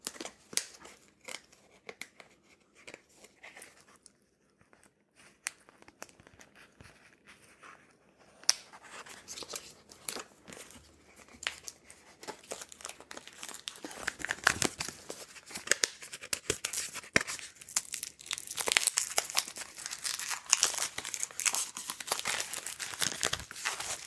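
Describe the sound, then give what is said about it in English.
Plastic wrapping being torn off a package makes a long run of crinkling and tearing rustles that start sparse and quiet and grow denser and louder in the second half, with no talking. “Let's tear off the plastic here.”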